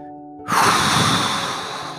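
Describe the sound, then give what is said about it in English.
A deep breath taken aloud: after a brief quiet moment, one long, full, breathy rush of air swells in and carries on steadily for about a second and a half. “Taking a deep breath like that, I'm going to do it one more time.”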